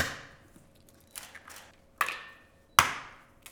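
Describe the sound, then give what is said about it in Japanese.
Two eggs are cracked into a bowl while preparing a batter, heard as a few sharp, quiet knocks and cracks spaced about a second apart against a faint background. “こっちでボウルに卵2個”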